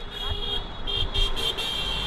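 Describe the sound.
Car horns honking at a protest in Rutland, several sustained, high-pitched blasts sounding in quick succession, with a vehicle rumble and voices underneath.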